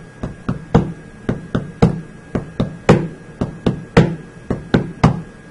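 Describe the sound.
Tapping out the rhythm of dactylic hexameter, the metre of ancient Greek epic: many sharp knocks in a steady repeating pattern, one louder tap followed by two lighter ones, heard alone without voices.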